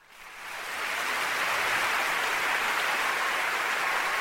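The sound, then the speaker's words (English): A long round of applause for a guest on a show swells in quickly and holds as a dense, even clatter of clapping. “Like, I had to give you a long applause for that.”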